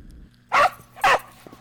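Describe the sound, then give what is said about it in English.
Two sharp, loud barks from a pet dog, evenly spaced a half second apart over a low, quiet background hum. “shut up. That's it. Outside now. Get out now. Why did Alex get me that dog?”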